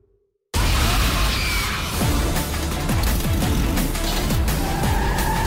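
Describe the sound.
A car driven wildly and skidding in a scene from the film Attack the Block: after a brief silence, a loud, constant roar of engine and tyre noise with repeated swooping rises and falls in engine pitch.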